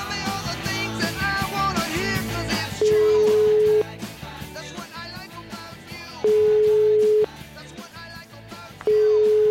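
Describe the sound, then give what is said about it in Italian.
Ringback tone of an outgoing telephone call to a friend: three steady mid-pitched tone bursts, each about a second long and a few seconds apart, sounding loudly over continuous background music. “farei una telefonatina all'amico Carlo Alvino”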